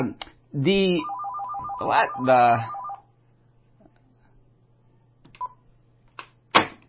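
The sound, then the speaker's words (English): A phone ringing with a spam call, a rapid pulsing ringtone heard under a person speaking, over a low steady hum. “I don't know why this is ringing. I shut it off. But anyway, just ignore the ringing. Spam call.”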